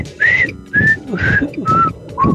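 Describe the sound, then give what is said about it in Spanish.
Whistling from a person calling a friend outside a house: five short, sharp whistled notes in a steady rhythm, each one pitched a little lower than the last, loud and alone. “yo le aventaba una piedrita y le chiflaba así, todavía hasta me acuerdo.”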